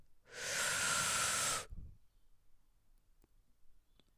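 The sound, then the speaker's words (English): A deep breath in, one long, loud airy inhale that swells quickly, holds steady for over a second and then cuts off, followed by faint soft clicks and quiet. “let's end this episode with a nice deep breath in.”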